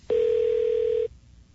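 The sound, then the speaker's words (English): An electronic telephone tone signals an incoming call: one clean, steady mid-pitched beep held for about a second, then cut off into near silence. “this is him getting an incoming call.”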